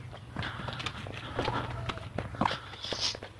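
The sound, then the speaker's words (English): Footsteps of a person walking outdoors in warm sunshine around 60 degrees, a steady run of soft, irregular steps over a low constant hum, with no talking. “I've worked up a sweat walking because I'm walking a lot in the sun.”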